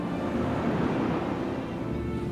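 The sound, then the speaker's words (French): Ocean waves and surf, with a giant wave rising, make a steady, broad roar of rushing water that holds at an even loudness throughout and has no clear separate breaks. “La mer! Enfin! Cette vague géante qui monte devant moi.”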